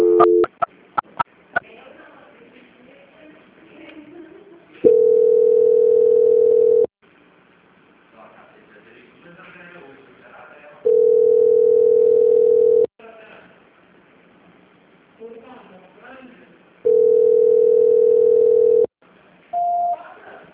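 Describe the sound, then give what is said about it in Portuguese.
A telephone line tone sounds while a call transfer is tried: three long, steady tones of about two seconds each, separated by longer stretches of quieter, busier sound, with a few clicks at the very start. “só mais um momento, tá? Que eu tô tentando a transferência”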